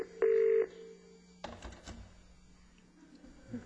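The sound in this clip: A telephone rings in one brief electronic burst near the start. A few soft knocks and rustles follow over a quiet background.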